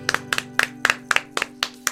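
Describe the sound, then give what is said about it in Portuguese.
Hand clapping after a congratulatory birthday song, a few sharp, evenly spaced claps in a steady rhythm, some doubled, ringing over a constant low tone. “Parabéns a você. Uma salva de palmas.”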